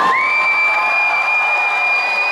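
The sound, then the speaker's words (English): Audience at a cosplay show cheering: a continuous, loud crowd roar with a shrill, sustained whoop riding on top from start to finish. “I want you to give each and every one of them a big round of applause, okay?”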